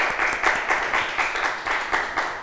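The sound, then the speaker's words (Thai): Students applaud a classmate in class with loud, steady group clapping. The claps fall into a regular, even rhythm throughout, with no talking over them. “เก่งมากค่ะปรบมือให้เพื่อนอีกหนึ่งครั้ง”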